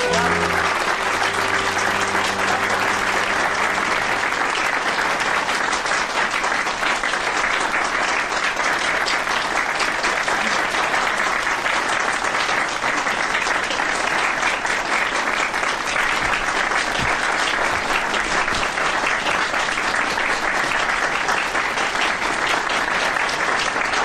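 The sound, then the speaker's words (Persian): Sustained audience applause, a dense, even wash of many hands clapping that stays steady and moderately loud without pause for the full length. “چه باشکوه نه؟ چه غرور انگیز، براشون دست بزنید.”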